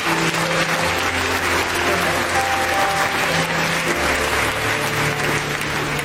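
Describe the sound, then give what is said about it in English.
Applause for families dedicating their babies fills the whole stretch: dense, steady clapping from many hands that stays loud and even throughout. “Would you give a hand to these wonderful families that dedicated these babies?”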